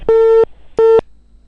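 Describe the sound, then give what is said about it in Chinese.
Two long, steady busy-signal beeps from a telephone call to a medical insurance bureau, a loud, low electronic tone broken by a short pause, with no voices. “我们在节目的时候，直播的时候给您查了一下医保局的电话，咱们试着联系一下啊。”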